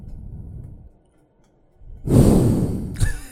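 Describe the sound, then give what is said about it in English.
Heavy breath blown straight into a microphone: after a low murmur and near silence comes a loud, airy rushing exhale, followed by a sharper short burst of breath. “Yes, breathe heavily into the microphone. Just blew a snot rocket on the boom.”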